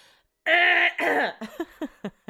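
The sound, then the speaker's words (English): Throat clearing from a man: a loud, rasping, drawn-out clear, then a second rougher one, followed by a few short, sharp hacks in quick succession, with no talk over them. “excuse me, let me just clear my throat a little louder.”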